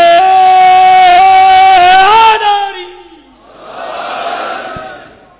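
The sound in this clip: A crowd shouts a religious slogan in response to a leader's call at a religious gathering. A single loud, sustained call breaks off, then the crowd's roar swells and fades, quieter than the call.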